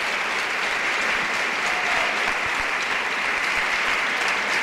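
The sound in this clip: A church audience applauds at a religious service. Dense, sustained clapping from many hands keeps a steady loudness from start to finish, with no voices standing out.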